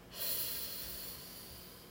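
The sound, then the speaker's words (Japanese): A slow, deep breath drawn in during a guided relaxation exercise, heard as a steady airy hiss that starts abruptly and holds evenly to the end. “空っぽにしてでゆっくり息を吸っていきましょう”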